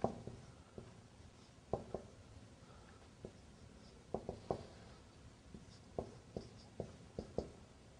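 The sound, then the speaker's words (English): Someone writes an explanation by hand. Many short, scratchy strokes come in uneven bursts and pauses over a quiet background, with no talking. “I'm writing the explanation.”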